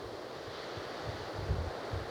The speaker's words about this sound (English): The wind is blowing very strongly.